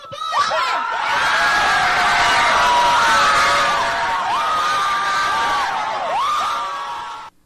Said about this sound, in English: And this is the sound of gathered crowds outside the Supreme Court in Washington this morning, just moments after the High Court announced its ruling.